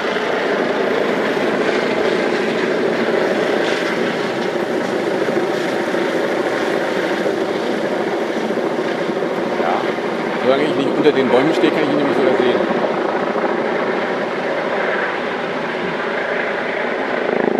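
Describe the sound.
A helicopter circles overhead outdoors, apparently on a search: a steady, loud rotor and engine drone that continues throughout, swelling slightly midway, while a person talks in German over it.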